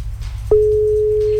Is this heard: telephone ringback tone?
yes